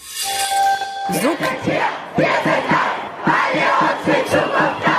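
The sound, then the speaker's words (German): A protest crowd chants at a Fridays for Future climate demonstration: many voices shout a short slogan together in a loud, punchy, repeating rhythm. “So klingt es seit Monaten freitags in vielen Städten bei den Fridays for Future Demos. Schülerinnen und Schüler protestieren lautstark gegen die ihrer Meinung nach zu lasche Klimapolitik der Regierung.”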